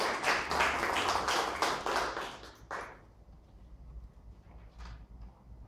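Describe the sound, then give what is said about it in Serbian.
Applause from an audience after a musical number at a literary event. A soft burst of clapping lasts about three seconds and then fades to near quiet, leaving a few scattered claps. “Još jedan aplauz.”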